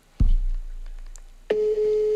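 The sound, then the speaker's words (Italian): An outgoing telephone call rings on the line: a low thump, then a steady mid-pitched ringing tone that starts and holds until the end, with no voices. “Il telefono squillerà, risponderà.”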